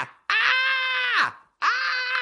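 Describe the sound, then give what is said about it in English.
A man's voice imitates the scream of a grown man being dragged off a plane by security. Two long, strained, high-pitched wails: the first lasts about a second and sags at its end, and the second follows a short gap. “The guy screamed like a bitch.”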